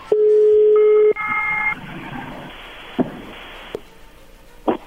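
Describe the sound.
Telephone number being dialed: a steady tone gives way to a few short keypad tones, then quieter line noise with a few faint clicks.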